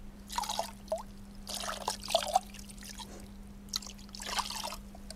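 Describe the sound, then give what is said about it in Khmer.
Cold water trickles and splashes as a patient's feet are washed, coming in several short pours and bursts with pauses between, over a steady low hum. “ហើយយើងត្រូវការយកទឹកត្រជាក់ដើម្បីនឹងលាងជើងអ្នកជំងឺរបស់យើង”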